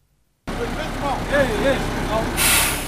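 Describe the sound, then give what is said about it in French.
A truck helping lay a drinking-water pipeline rumbles steadily after a sudden start from silence, with faint voices mixed into the engine noise and a bright hiss near the end. “Ceci est le bruit d'un camion qui est en train d'aider à mettre en place la canalisation d'eau potable captée dans le marais d'Onyakijima dans la commune d'Ongozi vers la ville d'Ongozi”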